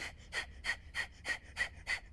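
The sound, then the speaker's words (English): Breath of fire: short, shallow breaths forced in and out through the nose. They come in a rapid, even series of sharp, airy puffs, about three per second, with no talk. “I do a lot of breath of fire, which is short, shallow breaths in through the nose, through the nose.”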